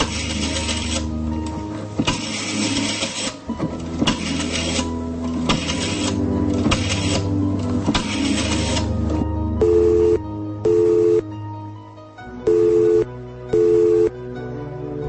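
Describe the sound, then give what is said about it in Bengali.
Telephone number being dialled and then ringing: a long run of noisy mechanical rattling bursts, followed near the end by short, clear ringing tones that come in two pairs. “সামলে নিয়ে বাকি নম্বর dial করতে ring বাজল।”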